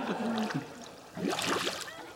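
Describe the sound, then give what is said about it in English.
Water bubbling up to the surface, gurgling and trickling in two soft bursts separated by a brief lull, with a faint low voice-like tone underneath. “Bubbles appear on the surface of the water. Suddenly, Alan and Candy pop their heads up and stare at Judith and Andy.”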